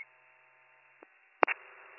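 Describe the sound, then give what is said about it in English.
A telephone number is dialed. A thin steady line tone is broken by a click, then a couple of short sharp keypad beeps, after which the tone returns, with no voices. “I'm going to try to give him a call.”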